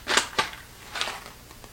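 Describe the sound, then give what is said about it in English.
Scissors cutting open an 8-ounce package of Natural Santo Domingo whole coffee beans: a few faint, crisp snipping crackles spaced unevenly, with no talking. “I'm just gonna cut the package open here.”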